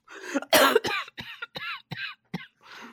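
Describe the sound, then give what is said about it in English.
Repeated coughing from a person whose throat is tickled after laughing hard: a run of sharp, raspy bursts separated by short gaps, loud and alone. “Every time you laugh really hard, you just start going. I know, because it tickles my throat when I laugh. And then I cough.”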